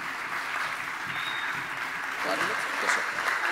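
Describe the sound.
Applause from a church audience at Pacific Baptist Church welcoming a visiting preacher to the pulpit at an evening service; dense, steady clapping fills the whole stretch and swells slightly near the end, with some voices mixed in.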